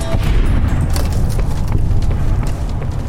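A video game explosion goes off with a heavy booming rumble, then a rapid scatter of crackling, debris-like bursts that stays loud and dense throughout, with no talking.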